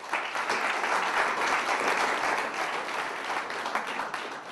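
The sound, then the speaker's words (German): Loud applause from an audience voting for a contestant at a live philosophy debate event: dense, steady clapping that holds at an even level for the whole stretch, with no voices over it. “Bitte jetzt abstimmen mit lautstarkem Applaus für Mirko Stockhausen.”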